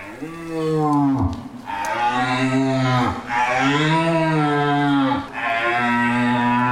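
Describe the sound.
Deep, drawn-out roars of an old red deer stag are mimicked on a hunting lure at a hunting event. Several long, throaty bellows follow one another, each swelling and then breaking off with a brief pause.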